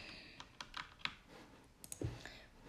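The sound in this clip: Faint clicks of a computer keyboard as the W key is pressed over and over to walk a game character forward, coming as several light, irregular taps alone.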